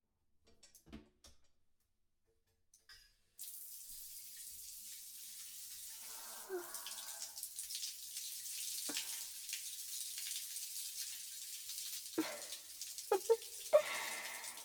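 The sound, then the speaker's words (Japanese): Tap water runs while hair is washed under it. A few soft knocks come first, then a steady rushing hiss sets in and continues, broken by occasional splashes and bumps near the end. “髪を洗う私をじっと見ていただいてもいいですよ。”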